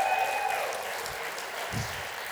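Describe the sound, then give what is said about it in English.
An audience claps to welcome four speakers onto the platform, a steady, moderate wash of applause at an even level throughout. “Why don't you put your hands together and give it up for Andrew, Grant, William, and Nelson Jesus. Welcome to the platform.”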